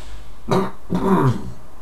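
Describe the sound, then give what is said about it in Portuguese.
Throat clearing and coughing from someone with a cough and phlegm: two short, rough bursts, the second longer and more gravelly, fairly loud against a quiet background. “com licença aqui, com um bocado tosse e catarro”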